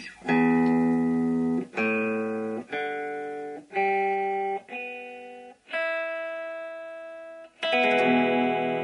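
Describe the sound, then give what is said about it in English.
Electric guitar playing seven sustained notes or chords, one after another, each struck sharply and then fading, with a bright, buzzy, effects-processed tone and nothing else heard. “Now, what you just heard was an electric guitar, probably not an unfamiliar sound to many people,”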